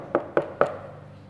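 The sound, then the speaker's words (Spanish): Three quick knocks on a door, evenly spaced hollow raps each with a brief ringing tail, heard alone without talk. “Dice la Biblia que era tarde de la noche cuando alguien golpea la puerta.”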